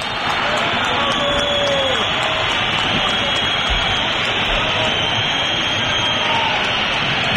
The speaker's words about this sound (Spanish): Fuerte pitada, no, fuerte está pitada. Claro, está claro, sí, sí. Los que han aguantado ha sido para mostrar su desacuerdo con el partido que han visto